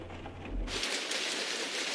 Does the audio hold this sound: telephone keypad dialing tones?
no

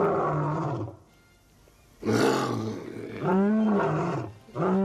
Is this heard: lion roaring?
yes

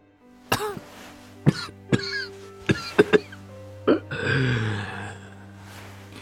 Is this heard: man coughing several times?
yes

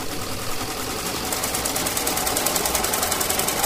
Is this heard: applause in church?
no

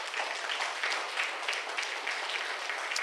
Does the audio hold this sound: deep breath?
no

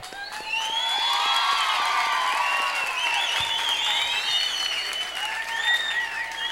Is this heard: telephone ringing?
no

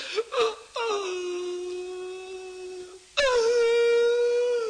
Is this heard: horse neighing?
no

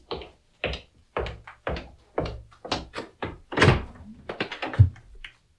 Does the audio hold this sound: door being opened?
yes

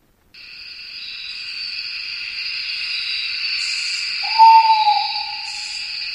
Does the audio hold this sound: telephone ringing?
no

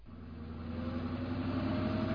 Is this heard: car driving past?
yes

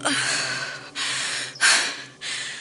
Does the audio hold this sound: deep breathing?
yes

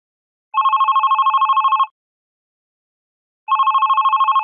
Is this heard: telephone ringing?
yes

